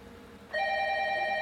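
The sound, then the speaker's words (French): A telephone bell starts ringing partway in and holds a steady, bright, multi-toned ring to the end, loud and alone with no talk. “Tiens, c'est à toi de répondre. Hein. De quoi? Tu peux répondre. Ah ouais, au téléphone.”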